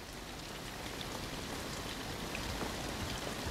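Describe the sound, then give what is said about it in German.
Steady rain falls outside, a dense, even hiss of drops with scattered faint patters, continuous throughout and heard alone without any voices. “Regnet es? Na hör doch, es trischt.”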